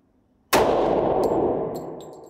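A 9mm gunshot strikes a steel target, producing one sharp, loud metallic clang that rings and slowly decays, followed by a few faint ticks.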